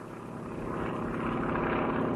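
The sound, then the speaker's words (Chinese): Propeller aircraft engine droning as a plane arrives over a village during a wartime retreat, a steady, rough, low hum that grows gradually louder throughout. “当走到一个村子时，一架飞机赶来，投下一个小降落伞。”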